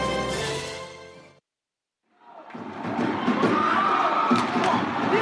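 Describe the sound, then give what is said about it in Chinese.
Crowd cheering fills an ice hockey rink at a city winter games final, rising out of a brief silence into a dense, sustained roar of many voices that stays loud to the end. “随着冰球场上的阵阵欢呼，昨天北京市第一届冬季运动会竞技组冰球比赛落下帷幕。”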